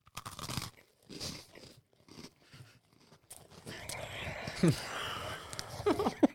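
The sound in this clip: Sharp crunches of teeth biting into a red Supreme-branded Oreo cookie, with a few loud bites near the end, followed by moist chewing.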